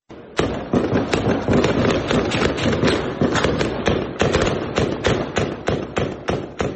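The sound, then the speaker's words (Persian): Gunfire and explosions in a Kabul city district after afternoon prayers: many sharp, loud cracks and bangs in rapid, irregular succession, forming a dense, continuous barrage with no voices. “این صدای تیراندازی در منطقه سید نور محمد شاه مینه ناحیه هشت شهر کابل است”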